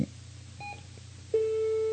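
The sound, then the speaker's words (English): A telephone line connects to a caller: a short electronic tone gives way to a steady, sustained beep over a low line hum. “All right, let's go to the telephone if I can get it to answer.”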